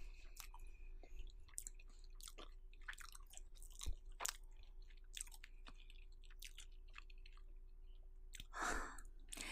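Faint chewing while eating rice at a home-cooked family meal, with soft, irregular wet clicks and crunches running steadily throughout.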